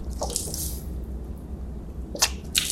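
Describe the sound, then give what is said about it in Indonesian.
Faint splashes of water come from a tap as a cupped handful is taken and swished around to rinse the mouth. A few short, wet bursts are separated by a quiet stretch. “Kerannya buka, ambil air gorfah namanya, segenggaman seperti ini. Ya, kemudian kalau sudah cukup tutup ini supaya tidak membazir kumur-kumur.”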